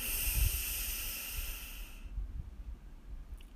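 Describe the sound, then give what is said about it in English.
Deep breathing during a guided relaxation exercise: a long, airy rush of breath lasting about two seconds, followed by softer, low breath noise. “So deep breath in and out. Pushing any stale air out. Deep breath in”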